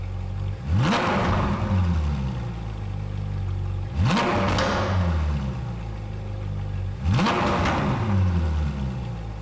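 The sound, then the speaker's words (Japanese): A 2014 Ferrari 458 Spider's 4.5-litre V8 engine revs in three loud bursts spaced evenly apart. Each rev climbs sharply, then falls back to a lower drone before the next. “2014年式フェラーリ458スパイダー4.5リッター V 型8気筒エンジン”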